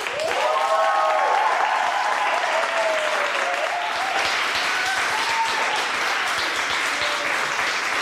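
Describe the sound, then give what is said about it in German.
Applause from a live audience of parents at a recorded event, a dense, steady wash of clapping that holds at an even loudness throughout the full eight seconds with no talk. “Können nur völlig erschöpfte und leicht überhitzte Eltern sein, die wahrscheinlich jetzt so applaudiert haben, weil sie Jahre darauf gewartet haben, dass dieses Thema endlich mal jemand zum Thema macht.”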